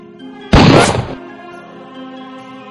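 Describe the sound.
Gunshot in a stage bullet-catch magic stunt: a single loud, sharp blast that decays over about half a second over a sustained musical backing.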